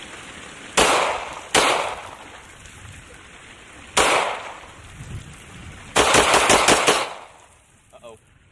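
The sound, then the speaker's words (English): A gun loaded with a measured amount of pond scum fires three separate loud, sharp shots, then a rapid burst of several more in quick succession, with quieter pauses between. “going to take a measured amount of pond scum and put it in the gun and see if it fires.”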